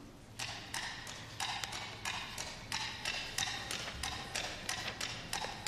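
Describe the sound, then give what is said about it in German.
Coconut shells knocked together imitate a horse's hooves in a piece of music depicting a cowboy riding. Many hollow clip-clop knocks form a steady, repeating trotting rhythm at moderate loudness, with no talk. “Und da hat er sich auch was einfallen lassen, dieser Komponist, und zwar ein Pferd, und das hört sich so an.”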